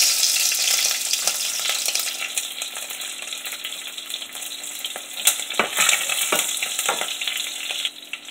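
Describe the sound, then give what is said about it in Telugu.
Cloves and green chillies fry in a non-stick pan, a loud, steady sizzle and crackle broken by a few sharp clicks of stirring. “Non stick so లవంగాలు వేసాను లవంగాలు వేసాను next పచ్చిమిర్చి వేస్తున్నాను”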